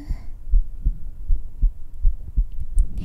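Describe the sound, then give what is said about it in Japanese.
A heartbeat recorded for binaural ASMR: a steady run of soft, deep, muffled thumps at a calm, even pace, with no talking over it. “どう？ドキドキ聞こえるかな？”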